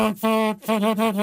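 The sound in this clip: A human voice imitates a reversing vehicle's warning beep, with three sustained, steady-pitched tones separated by brief gaps.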